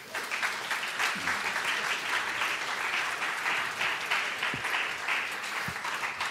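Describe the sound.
Applause from an audience welcoming a spoken word performer to an event, a steady, dense wash of clapping that holds at an even level for the whole stretch, with no voices over it.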